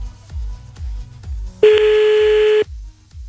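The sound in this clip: A telephone call being placed: a rapid run of short, low, evenly spaced dialing pulses, then a single loud, steady tone lasting about a second, and then the pulses resume.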